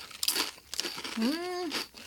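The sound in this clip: Crisp crunching of a light, airy snack made with natural carbonated spring water as it is bitten and chewed. A few short, dry crunches come in brief bursts, and a voice hums a drawn-out sound in the middle.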